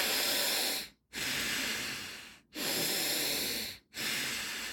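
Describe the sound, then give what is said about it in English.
Deep breathing in and out through the nose, with long, airy, hissing breaths that follow one another in a steady rhythm, each separated by a brief silent pause. “You're just breathing in real deeply, and then you let go. You could do this through your nose.”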